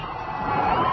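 A crowd cheers in Iraq as U.S. troops withdraw from urban areas, a brief, dense burst of massed shouting and whooping that swells slightly toward the end.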